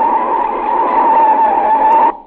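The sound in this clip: Car tires skid under hard braking, a loud, steady, high screech that holds for about two seconds before cutting off abruptly, with no voices.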